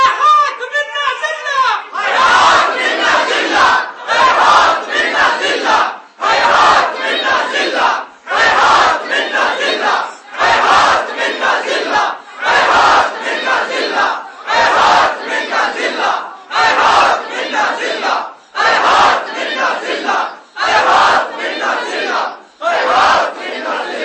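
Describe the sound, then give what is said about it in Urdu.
A large crowd chants the slogan "Hayhat min al-dhillah" in unison, loud shouted phrases repeated many times in a steady rhythm with brief gaps between each call. “یہ نعرہ ہے ہاتھ من ذلہ”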